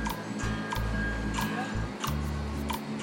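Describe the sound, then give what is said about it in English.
A metronome click track bleeds into a guitar recording of seventh chords. Steady, evenly spaced sharp ticks run over sustained low guitar chords. “So you can hear the click track still in there.”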